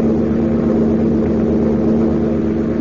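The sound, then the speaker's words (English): Airplane engine droning steadily in flight, a constant low, even hum that holds without change throughout, with no voices over it. “it seems to me the plane is heading west.”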